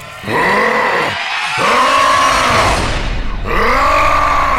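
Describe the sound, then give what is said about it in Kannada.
The angry roar of a demon: loud, deep, growling vocal roars with a strained, arching tone. Three long roars come in sequence, separated by short gaps, and one is trailed by a rough, noisy rumble. “ಅವಳ ಮೃತ್ಯುವಿನ ಸಂದೇಶ ಪಡೆದ ಅವಳ ಪುತ್ರ ಮಾರೀಚ ಕ್ರೋಧದಿಂದ ಘರ್ಜಿಸಿದ.”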